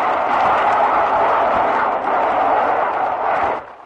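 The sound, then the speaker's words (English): Roar of aircraft rockets fired in a salvo at Japanese pillboxes during the 1945 Iwo Jima landings: a loud, dense, continuous rushing blast that holds steady throughout and drops away briefly at the very end. “There goes another pair of rockets right in front of them.”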